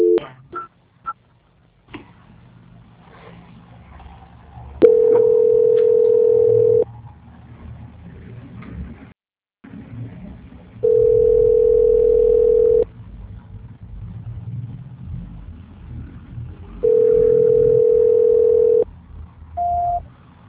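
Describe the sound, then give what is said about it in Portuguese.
Telephone line tones while a call is being transferred: three long, steady mid-pitched tones, each lasting about two seconds, separated by quieter line noise, with a few clicks at the start and a short beep at the end. “Que a gente tá com dificuldade pra transferir a ligação. Aguarda em linha, tá? Tá. Só um minutinho. Transferência.”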